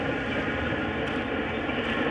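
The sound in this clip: An S-Bahn commuter train passing along a former shopping street in a city, heard as a steady, dense rumbling roar that holds at an even loudness throughout, with no voices.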